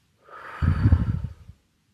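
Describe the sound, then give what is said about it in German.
A deep breath taken during a guided meditation exercise, in through the nose and out through the mouth: one airy, breathy rush about a second long, heard alone. “Atme tief durch die Nase ein und durch den Mund wieder aus.”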